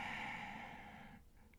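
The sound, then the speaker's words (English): A slow, deep breath during a guided meditation: a soft, steady airy rush that holds for just over a second and then fades away. “So take a deep breath in.”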